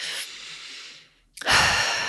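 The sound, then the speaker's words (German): A deep breath in and out during a guided relaxation exercise. One long, airy breath fades to a brief silence, then a louder, rushing breath starts and holds steady. There is no talk. “atme hier einmal tief ein und aus.”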